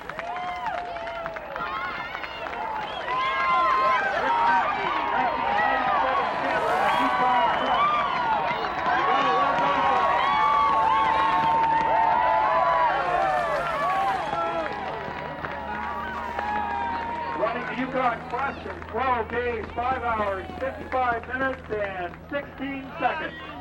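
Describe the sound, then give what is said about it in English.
A large crowd cheers and claps as the 1997 Yukon Quest winner arrives at the finish, a dense, continuous din of many voices that holds steady and thins slightly toward the end. “let's just listen to the folks as they bring in our 1997 winner, Mr. Rick Mackey from Nenana.”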